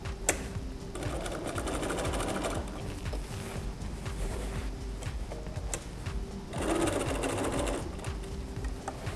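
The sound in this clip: A sewing machine backstitches across the top edge of an apron pocket with a steady, fast mechanical whir of needle strokes. The whir holds an even level throughout and grows slightly louder near the end.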